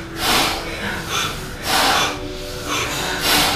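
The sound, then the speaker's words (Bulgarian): Bhastrika bellows breathing exercise: a run of about five forceful, noisy breaths, strong rhythmic bursts of air with brief pauses between them. “Бастрика. Ковашки мях, бастрика. Дишай.”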